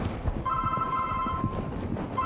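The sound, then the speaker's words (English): A mobile phone rings during a lecture: a steady, high electronic ringtone sounds for about a second, stops, then starts again near the end over a low room hum. “Now that's really embarrassing when your phone rings during a talk. That is really embarrassing.”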